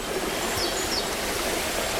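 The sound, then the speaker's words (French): Small waterfall trickling beside a path: a steady, even rush of water with no distinct events, constant in level throughout. “Au bord du chemin, petite cascade.”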